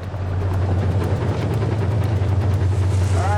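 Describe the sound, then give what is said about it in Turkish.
Water pumps run on a gold mining wash plant, giving a continuous loud, low engine drone with a steady hum and no voices. “Hadi pompaları çalıştıralım.”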